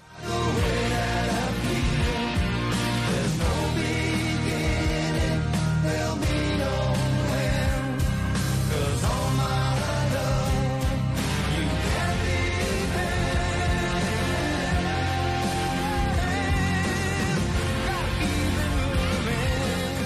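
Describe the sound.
A chart-topping song from a romantic comedy film soundtrack plays with full, dense instrumentation and a strong bass line, loud and continuous throughout without breaks.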